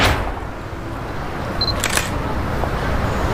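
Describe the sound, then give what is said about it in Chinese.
A camera shutter firing as a photo is taken, a couple of quick, crisp clicks close together over a steady background hiss. “你好，我给你拍了一张照片，我是摄影家协会的。”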